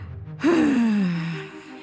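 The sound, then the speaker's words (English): Air is breathed out through the mouth in one voiced sigh that begins abruptly after a quiet lead-in, gliding downward in pitch and fading over about a second. “And breathe out through your mouth. Yes. Feel free to make some noise if you like.”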